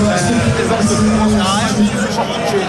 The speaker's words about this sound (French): Je vais te couper parce que malheureusement, il y a trop d'ambiance, on n'arrive pas à entendre ce que tu nous dis.